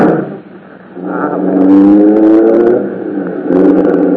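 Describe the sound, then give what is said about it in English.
A taxi cab's engine starts and drives off with a loud, low droning rumble. It revs with a rising pitch through the middle, eases off, then swells again near the end. “Can't we run out in a cab? Oh, all right. Let's get in this one. Sure. Driver, take us to 451 North Beverly Drive.”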